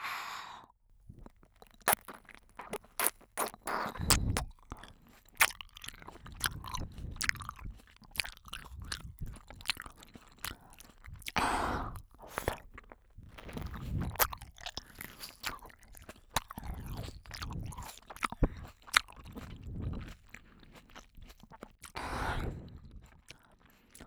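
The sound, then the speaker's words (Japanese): Crunchy chewing and biting of fresh seedless grapes, with many wet, crisp bites and squishy mastication sounds in an irregular rhythm, fairly loud and with no talking. “種の入ってないぶどうだよ。 新鮮な果実を君の耳元でいただきます。”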